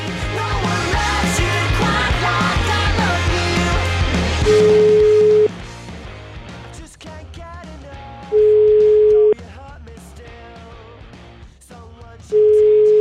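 Telephone ringback tones as a call is placed: three steady, evenly spaced beeps, each about a second long, sounding over music that starts loud and then drops to a quieter bed.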